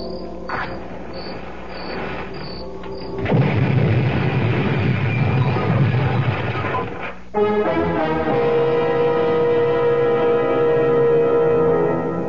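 A car's gas tank, doused with gasoline and lit with a match, bursts into a loud, sustained roar after several seconds of steady high chirping. The roar cuts off abruptly into a lingering, rumbling hum.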